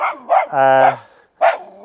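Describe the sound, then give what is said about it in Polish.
A dog barks at a person holding a camera, giving a few loud, sharp barks in quick succession. One bark is drawn out and more tonal, and the last barks come after a brief pause. “w tym momencie mamy oszczekanie Michała. Michał trzyma aparat, który no, ją też niepokoi”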